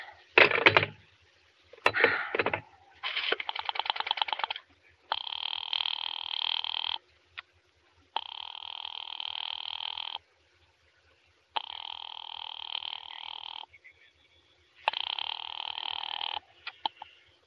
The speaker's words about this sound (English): I've been dialing Murray Hill 70093 now for the last three quarters of an hour, and the line is always busy.